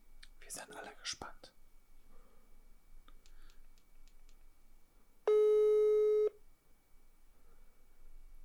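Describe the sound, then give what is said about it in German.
A phone call's ringback tone, placed through an app, sounds once as a steady, buzzy hum lasting about a second. Faint murmuring and whispering voices are heard before it. “Ich würde jetzt einfach mal, ich würde jetzt einfach mal anrufen.”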